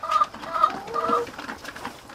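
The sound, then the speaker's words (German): Chickens clucking on an organic farm, a series of short, sharp clucks at an irregular pace, fairly faint with no talk. “Demnächst sollen auf den Feldern auch noch Hühner herumlaufen. Die werden bisher im Stall gehalten. Doch die nächste Generation wird zum Freilaufhuhn.”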